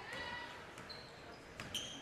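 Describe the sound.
A basketball dribbled during a women's game, a few faint, sharp bounces at irregular intervals over a low, steady background.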